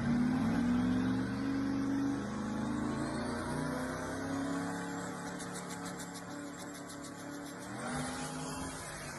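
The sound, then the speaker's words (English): Twin-turbo Duramax diesel engine in a drag racing setup revving loudly, a sustained, heavy drone with layered harmonics that climb as the revs build, running without a break through the whole clip. “Now, Duramax has a unique sound. Oh, especially with the twin turbos.”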